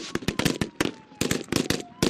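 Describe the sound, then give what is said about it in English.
Gunshots in a mock terrorist kidnapping exercise: many sharp, rapid cracks in irregular bursts, loud and crowded together, with brief gaps between volleys. “Suddenly, shots fill the air. It's a mock terrorist kidnapping of a government official.”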